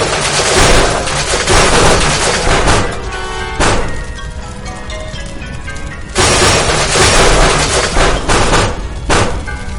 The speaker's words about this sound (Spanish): Cilindros de gas explotan.